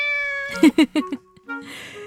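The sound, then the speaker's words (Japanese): A cat meows by a stairway near a shopping street, giving a few short, tonal meows in quick succession. A sustained high tone runs underneath, and a burst of hiss follows at the end. “あ、本物の猫”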